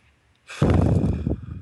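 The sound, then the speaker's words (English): A deep breath taken alone, one long airy rush of breath lasting about a second, fairly loud at first and easing off toward the end. “Take a deep breath.”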